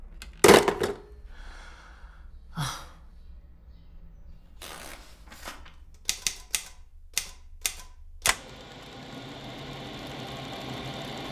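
A typewriter being used to type a report: a few sharp, separate key clacks in an uneven rhythm, with a louder thud near the start and a steady hiss taking over at the end.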